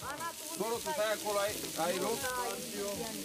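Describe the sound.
Mici, a typical Romanian barbecue dish, sizzle on a griddle with a faint, steady hiss running under people talking.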